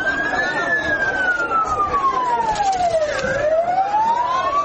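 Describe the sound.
An ambulance siren wails at the port of Mukalla, a single loud tone that glides slowly downward for a few seconds and then climbs again over a noisy background.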